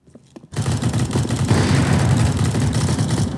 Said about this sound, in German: Kilometerweise Stacheldraht. Ein endloses Netz aus Schützengräben und Bunkern. Rollende Panzer, mutige Soldaten an der Front und als Geräuschkulisse eine Sinfonie aus Explosionen, Artilleriegeschossen und Maschinengewehren.